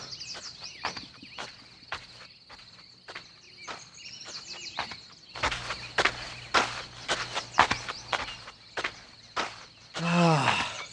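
Footsteps of someone setting out on foot on a journey: a steady series of crunching steps. Faint insect chirps run underneath, and a short rising chirp comes near the end.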